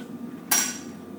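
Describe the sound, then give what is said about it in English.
A single sharp knock as a cutting board is swapped out in a kitchen while preparing roast chicken, a brief, bright clatter that decays quickly into quiet. “I'm going to switch my board out here and bring over my chicken.”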